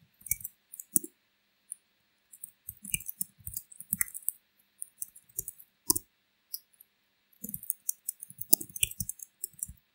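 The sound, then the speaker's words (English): A computer mouse clicks and keys tap while someone fills in a sign-up form. The clicks and taps are faint and sharp, coming in many irregular bursts with short quiet gaps. “And once I complete filling in all this information, click continue.”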